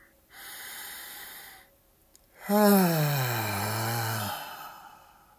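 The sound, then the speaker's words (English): A deep breath: a long, audible inhale followed, after a short pause, by a longer voiced sigh on the exhale, with no talk over it. “If you're not driving, close your eyes, take a deep breath.”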